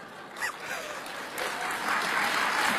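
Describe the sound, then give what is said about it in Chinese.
Audience applause at a crosstalk comedy performance: a dense, steady wash of many hands clapping that swells and grows louder toward the end, with no talk over it. “这些掌声都是发自肺腑的了。”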